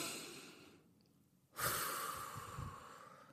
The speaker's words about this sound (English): We're gonna take a deep breath in. Come on, y'all, breathe with me, y'all.